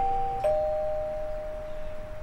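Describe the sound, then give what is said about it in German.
A doorbell rings at a house entrance on a cold evening: clear, steady chime tones that hold and fade over about a second and a half against a quiet background. “Ich klingel mal.”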